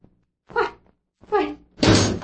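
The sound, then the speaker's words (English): A door being opened late at night after a knock, heard as a few dull thunks followed by a louder, rougher noisy burst, with no talk. “But I opened the door and there wasn't anyone there.”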